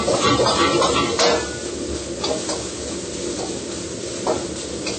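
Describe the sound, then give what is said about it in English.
Food being stirred and cooked in a hot pan gives a steady, noisy sizzle with scraping stir sounds throughout, and a few brief clinks of utensil against the pan stand out over the frying. “The food's stirring it. You just cook about like a minute or 2 minutes.”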